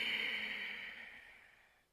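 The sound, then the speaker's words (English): A single soft exhale during a breathing exercise, a breathy airy rush that is quiet throughout and tapers off gradually over about two seconds. “And again. Exhale.”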